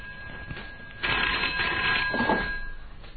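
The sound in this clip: Telephone ringing: a single sustained ring burst rises out of a quieter background, holds for about a second and a half, then fades.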